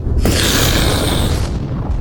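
A fireball explosion sound effect for a massive blast in a hall during a tabletop role-playing game: a loud, roaring, whooshing burst that hits suddenly, sustains its rumble for about a second, then tails off.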